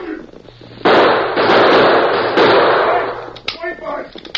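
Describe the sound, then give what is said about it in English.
Gunfire in a radio drama: a sudden loud blast opens into a sustained rushing roar lasting a few seconds. Voices come in as it fades. “Confound it. My gun's empty. But you got one of them, Tom.”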